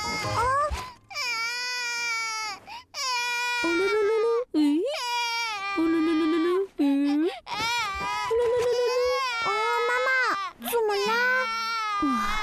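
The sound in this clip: An infant cries suddenly and will not take milk. Loud, high wailing sobs come in many sustained bursts with short breaths between them, heard alone without other voices.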